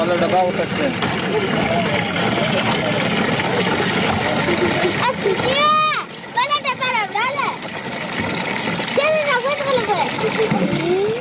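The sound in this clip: Water splashes and spatters as children fill cans at a water tank built by an aid organization. The splashing runs steadily throughout, with children's voices calling out over it in the second half.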